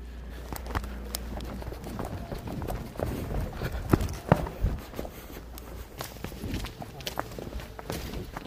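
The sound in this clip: People run one by one across a street in Beirut. Their footsteps are quick and uneven, a run of many sharp footfalls with a few louder slaps near the middle, over a low rumbling background.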